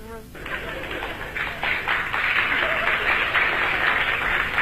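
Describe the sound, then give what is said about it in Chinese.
Applause from a small crowd at a live comedy performance, a steady patter of scattered hand claps after a brief opening sound, moderately loud and fairly even throughout without a clear build. “那个鼓掌的人不多呀。鼓掌的人都是南方人。”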